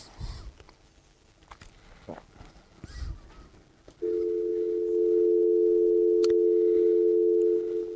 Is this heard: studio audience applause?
no